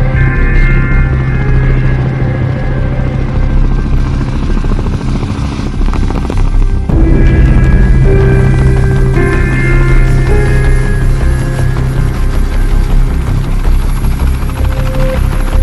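An aircraft coming in to land, a loud, steady rotor-and-engine drone that fills the whole stretch without a break, its tone shifting slightly about halfway through.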